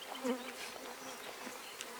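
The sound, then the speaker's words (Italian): Honey bees from a beekeeper's hives buzz in a continuous, steady, fairly soft drone. Individual wingbeat hums swell and fade within the swarm. “la passione per questi insetti meravigliosi. Ho cominciato con 4 famiglie di api, adesso ne ho 200.”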